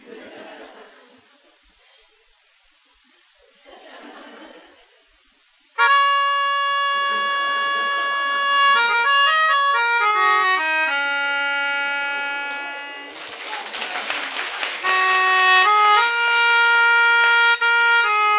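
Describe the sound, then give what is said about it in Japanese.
A pianica (melodica) plays loud, reedy sustained notes and chords that enter abruptly after a few quiet seconds, then shift up and down in pitch through a wandering, unstructured passage. “私はそのピアニストの、提言に従いまして、頭を使って、このピアニカを弾いていただきたいと思います。”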